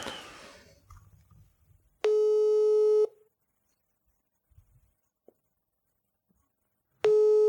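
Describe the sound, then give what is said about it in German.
Ringback tone of an outgoing telephone call: two steady, bright electronic tones about a second long, separated by a long silent gap. The second tone is cut off at the end. A short burst of noise comes before the first tone. “Benjamin ruft jetzt Thomas an”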